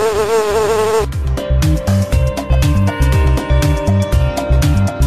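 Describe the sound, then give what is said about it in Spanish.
A bee's buzzing sounds as a loud, wavering, harmonic drone for about the first second. A rhythmic musical beat with steady repeating pulses and sustained tones follows, and nobody talks. “¿Quién soy? ¡La abeja!”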